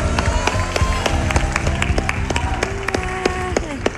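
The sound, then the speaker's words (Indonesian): Hands clapping at a children's singing competition: many sharp, irregular claps that jump out above a steady tonal background, holding at a fairly loud, uneven level. “Tepuk tangan.”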